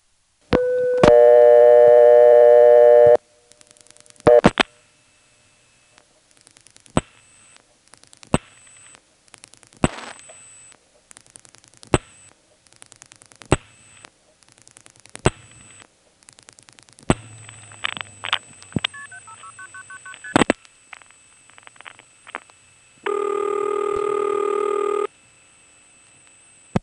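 Old-style telephone exchange tones as a seven-digit number is dialed: a loud burst of multi-frequency tone, a long run of sharp clicks over faint steady tones, then another sustained tone burst near the end, with no talk.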